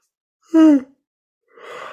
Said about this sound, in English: Yawning in shamanic context is an energy release mechanism.